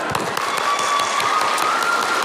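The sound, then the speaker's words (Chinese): An audience applauds a pair of performing brothers with dense, even clapping that stays loud and steady throughout, with no gaps or swells. “给于氏鼓鼓掌。”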